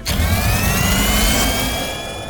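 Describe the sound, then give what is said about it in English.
Engine revving as a turbo booster is pushed: a loud, sustained roar with rising harmonic tones that climb steadily in pitch, then eases off slightly near the end. “They pushed the turbo booster! We're really moving now! I like the turbo booster!”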